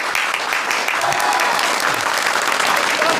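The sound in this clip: A reunion audience of former sent-down youth applauds loudly to welcome their old village party secretary, a dense, unbroken burst of clapping that holds steady from start to finish.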